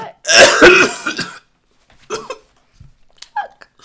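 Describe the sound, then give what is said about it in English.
Coughing attack: a long, harsh burst of coughing and throat clearing, followed by a few shorter, quieter coughs separated by pauses. “I get like this, I sometimes go through cough, I just get cough attacks”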